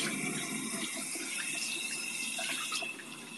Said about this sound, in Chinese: 洗洗手